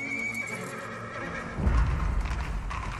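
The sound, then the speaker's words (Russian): An officer's horse neighs with a long, strained whinny, then its hooves clip-clop as it rides out through the gates, the hoofbeats louder and rumbling. “Из ворот выезжает офицер. Проехав несколько метров влево, останавливает лошадь.”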